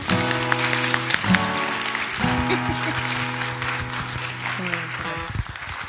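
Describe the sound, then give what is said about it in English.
Congregation applause during a church service, a steady wash of clapping heard over sustained instrumental chords that shift a few times, the clapping continuing throughout at a moderate level. “I want you to give a round of applause for her faith and her obedience, and welcome your pastor, Pastor Inez, to the board.”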